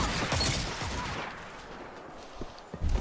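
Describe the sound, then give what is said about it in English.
Shotgun gunfire in the video game Destiny 2: a dense, continuous wash of shots and blasts that thins out, then a couple of sharp loud reports near the end. “My shotgun has range, but sometimes it can be like a pain in the rear.”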